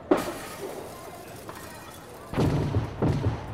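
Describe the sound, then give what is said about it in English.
Stun grenades exploding around a house during a raid, a few sharp, fairly quiet bangs with a shattering crackle, spaced irregularly, the later ones closer together. “Throw in stun grenades on my signal.”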